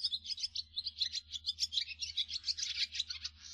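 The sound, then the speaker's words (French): Barn swallow twittering: a continuous stream of many quick, high-pitched chirps and warbles, fairly faint, over a low steady hum. “Tendez l'oreille, plus aucun de ces cris atypiques, vous n'entendrez que les gazouillis de l'hirondelle rustique.”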